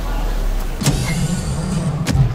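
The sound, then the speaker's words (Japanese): An upward-opening door on a Tesla electric car, a taxi at Hamamatsucho station, lifting with a low, steady motor hum framed by two sharp mechanical clicks. “うわ、なんだこれ。バックトゥーザフューチャーのデロリアみたいにドアが上に上がって開いたぞ。これテスラの電気自動車じゃん。”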